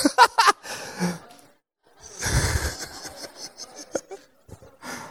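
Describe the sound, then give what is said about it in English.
A snort from someone in the audience, a short breathy nasal burst set among scattered breaths and faint small noises. “Did someone snort? Anyone out here?”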